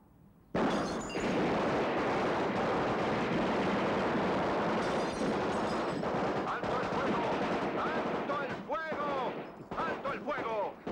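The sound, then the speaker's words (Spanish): Sustained heavy gunfire in a film shootout: a dense, continuous roar of rapid shots that starts abruptly and stays loud for about ten seconds, thinning into separate bursts near the end as a voice cuts in. “Ahora lo tengo. Disparo.”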